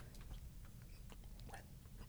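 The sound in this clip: Faint chewing of a bite of bread made with anti-staling ingredients, with soft, irregular moist crunches and mouth noises at a low level.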